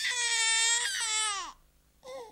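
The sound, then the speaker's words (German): A baby bawling loudly: a long, strained wailing cry that drops in pitch as it trails off, then a short second cry after a brief pause. “Und das Baby, das Sie soeben brüllen gehört haben, hört sich heute so an.”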